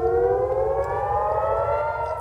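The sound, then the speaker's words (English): Air raid sirens wail steadily through the night during airstrikes in northern Israel, a loud, sustained, layered tone of several overlapping pitches. The sirens hold constant throughout over a low background rumble. “Sirens piercing the night with Israeli jets carrying out airstrikes against Hezbollah in Lebanon”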